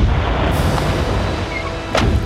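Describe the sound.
Gunfire is aimed at a steel-hulled vessel at sea, with a few sharp cracking bursts standing out over a constant rushing, rumbling background.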